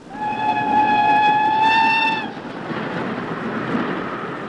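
A passing locomotive sounds a sustained, multi-toned whistle for about two seconds over a rumbling roar, then the whistle stops and the train's steady rumble carries on alone.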